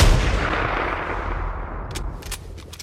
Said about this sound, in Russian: Одновременно с ним я потянул курок и грянул выстрел.